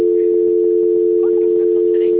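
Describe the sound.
A steady telephone tone sounds while a call is being transferred. It is loud, continuous and unbroken at one constant pitch for the whole clip, with faint background noise beneath it.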